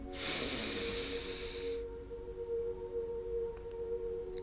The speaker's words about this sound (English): Are you ready to breathe and breathe now.